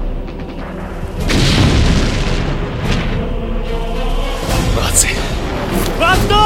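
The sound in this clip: Grenades explode at a bunker in a war film scene, a loud, dense rumbling boom that fills the whole clip, with crackling bursts layered over the sustained roar.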